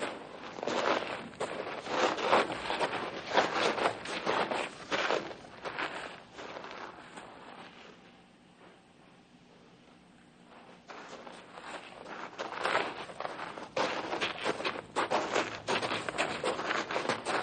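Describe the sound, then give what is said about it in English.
Footsteps of people walking on and on, many steady steps with a quieter lull midway before the treading picks up again, with no talk. “Let's stop and park our bodies for a bit, huh? Okay. We've been walking for 2 hours now.”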